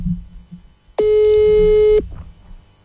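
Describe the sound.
A telephone busy tone sounds after a call is placed: one loud, flat, steady beep lasting about a second, with faint background sound before and after.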